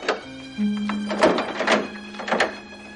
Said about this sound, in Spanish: Dos criados cierran el portón de la venta.